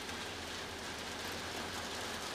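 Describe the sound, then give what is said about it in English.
Heavy rain pours outside a screened-in porch, heard as a faint, steady, even hiss with no separate drops standing out and no voices. “from my outdoor screened-in porch studio where I'm being protected from the rain. You may be able to hear it in the background.”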